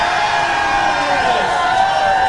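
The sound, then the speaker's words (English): Quiz show studio audience cheering and making noise to vote for who answered correctly: a dense, steady crowd roar that holds at an even, loud level throughout. “Ladies and gentlemen, your noise and volume boos will be counted. Your noise and volume for who got that answer correct.”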